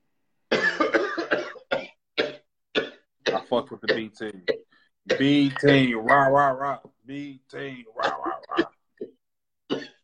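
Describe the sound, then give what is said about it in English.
A man coughs and chokes on something caught in his throat, with harsh, rasping coughs in a few bursts among stretches of his speech. “I'm sorry. I was really choking in real life. I wasn't being an ass. Excuse me. I had something down my throat.”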